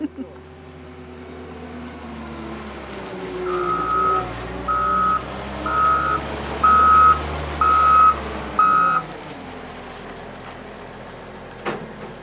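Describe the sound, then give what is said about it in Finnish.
A wheel loader at a stone quarry backs up, its reversing alarm sounding six evenly spaced high beeps over a deep diesel engine rumble that swells and fades. “Mikä toi kone on, minkä sä otit? Se on pyöräkuormaaja pyörä”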